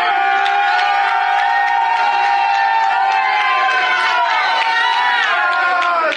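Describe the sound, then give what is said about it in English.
A crowd shouts and cheers loudly, a dense, continuous roar of many voices that holds steady throughout. “but the seventh time, we're going to shout. And when they shouted, the wall fell down flat.”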